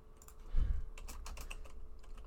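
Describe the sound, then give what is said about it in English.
Faint typing on a computer keyboard: a low thump followed by a quick, irregular run of light key clicks, with no talk. “Type in McFarland, see what comes up.”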